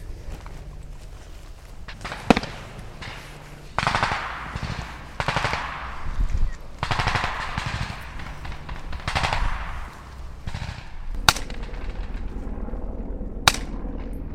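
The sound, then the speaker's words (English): Soldiers fire guns at night under flares, sending out several sharp, loud bursts of automatic fire mixed with single cracking shots, separated by short pauses over a steady background rumble. “We can hear the soldiers being, they're very very precise in what they're firing there. They're trying to make every bullet count”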